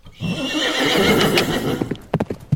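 A horse neighs loudly in a long, quavering whinny while being ridden off in the dark early morning, followed by a few sharp hoof clops.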